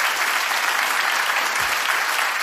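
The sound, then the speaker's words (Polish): Dense, steady applause from a concert crowd as a band member is introduced, a continuous wash of many hands clapping at an even loudness throughout. “Wielkie brawa.”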